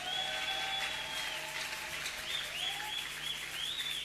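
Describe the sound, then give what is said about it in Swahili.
Congregation applause in a church: steady, dense clapping that holds at an even level throughout, with a few faint high whistling tones above it. “Wale wanaamini inawezekana, walete makofi kwa Yesu.”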